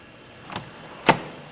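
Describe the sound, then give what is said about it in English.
The door to a baseball humidor deep inside a stadium opens, heard as two brief, sharp sounds: a softer one first, then a louder, crisper one about half a second later, against a quiet background. “Deep inside the Rocky Stadium, Kevin Kahn opens the door to the humidor and then steps inside.”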